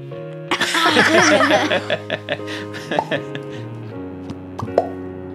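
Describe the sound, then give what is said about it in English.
Three hosts make popping noises with their mouths: a scattered series of short, hollow plops that follows an opening burst of laughter, with chuckling between the pops. “Let's try the three. The three of us will do the popping noise on the Rathercast. 3, 2, 1.”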